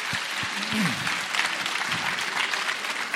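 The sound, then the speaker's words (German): Audience applause at a live Black Stories game show: a steady, dense patter of clapping hands that holds for a few seconds. “Das war zwar jetzt semantisch nicht die am schönsten formulierte Ja-Nein-Frage, die ich in meiner Laufbahn als Black Stories Spielleiter gehört habe, aber wir sagen ja und ihr applaudiert.”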